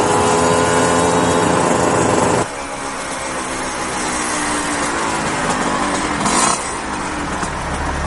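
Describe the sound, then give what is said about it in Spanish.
A motorcycle engine at night on the streets of Valencia, first a steady droning tone, then a sudden drop to a quieter, lower rumble, with a brief louder swell near the end. “Otra noche Laura va en la moto con el moro.”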